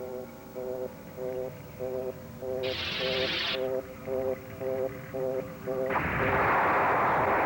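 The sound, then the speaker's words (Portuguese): A loaded cannon fires in a loud, broad roaring blast near the end. Before it come steady rhythmic electronic beeps and a brief hissing burst midway. “Canhão carregado, pronto para disparar.”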